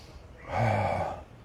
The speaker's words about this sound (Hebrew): כרגע אתה מרוכז בלנשום נכון, תנשום,